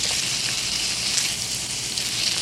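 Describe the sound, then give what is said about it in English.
Bacon renders down in a pan with a steady, dense sizzle. The hissing fry is fairly soft, with scattered small pops and no talk. “rendering down the bacon here. Let's go listen to that ASMR.”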